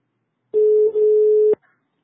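A telephone line tone plays while calling someone back after a dropped call on a bad line. One steady tone lasts about a second with a brief dip midway, then ends in a sharp click.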